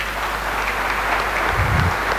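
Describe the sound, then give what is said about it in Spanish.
Applause from a crowd at a religious novena gathering forms a dense, continuous patter of clapping that stays loud and even from start to finish. “Así que bien fuerte este aplauso.”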